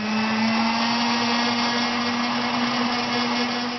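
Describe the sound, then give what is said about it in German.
A hand blender whirs through pumpkin soup with a loud, continuous motor drone that holds one steady pitch throughout, with no talk over it. “Und dann tut man das noch zusammen noch mixen mit dem Startmixer.”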